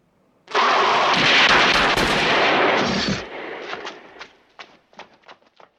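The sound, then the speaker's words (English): Gunshots ring out in a film scene as police in a long alley open fire on a lunging werewolf: a loud, sustained volley of blasts for several seconds, followed by a scattering of shorter, sharper shots that grow fainter and more spaced out. “When she says this, there does seem to be some momentary recognition, but then he lunges forward and is shot by the police”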